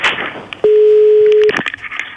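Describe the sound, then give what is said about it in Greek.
A telephone tone sounds as a call is placed: one steady, loud, mid-pitched beep lasting nearly a second, with faint muffled sounds before and after it. “Παίρνεις τηλέφωνο.”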